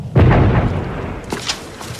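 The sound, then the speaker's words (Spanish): Artillery fire: a deep, heavy boom opens loudly and rumbles as it decays, followed by a few fainter, sharper bursts. “La artillería que oímos ha sido divisada en un campo, carretera abajo.”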